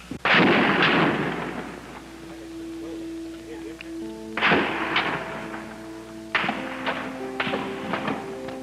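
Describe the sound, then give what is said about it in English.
Gunfire from a shooter in a clock tower, with bullets ricocheting off the top of a building. Several sharp, loud reports with ringing tails come at irregular intervals, and fainter cracks follow between them. “Ricochet bullets bouncing off the top of the building.”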